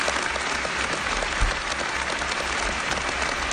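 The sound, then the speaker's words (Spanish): An ovation of applause from the Austrian audience at the Salzburg Festival, greeting a tenor's return to the opera stage in Europe: a sustained, dense wash of clapping at an even level throughout. “en el Festival de Salzburgo, el público austríaco le dedicó esta impresionante ovación”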